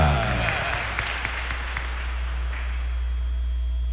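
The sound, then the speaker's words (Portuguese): Applause from a church audience honouring Our Lady of Abadia: loud, dense, continuous clapping that fills the whole clip, with a few sharper claps standing out early on. “salva de palmas à Senhora da Abadia.”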